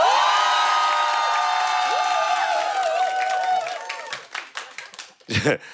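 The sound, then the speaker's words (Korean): A studio audience of 70 people cheers with sustained high yells and shrieks, then breaks into clapping and scattered shouts toward the end. “그리고 여기 70명의 방청객이 있어요. 소리 질러.”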